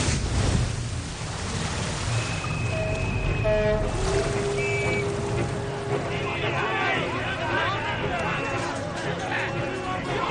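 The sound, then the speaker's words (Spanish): Churning water and heavy rumble as a boat sinks in a harbour, a dense, loud wash of surf-like noise that runs throughout, with a few brief whistle- or horn-like tones rising out of it. “La embarcación se hunde tras ellos en el puerto.”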